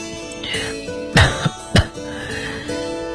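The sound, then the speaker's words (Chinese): Two sharp coughs burst out about half a second apart, each short and forceful, standing out clearly above a soft, steady background. “K 爹没有说话，德里特里便咳嗽了两声，继续说下去。”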